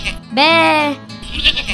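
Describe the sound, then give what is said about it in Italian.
A goat bleats in the countryside: a single sustained, tonal bleat of about half a second, loud and steady. Voices talk before and after it. “Inutilmente la capra belava l'innocenza di Angelo.”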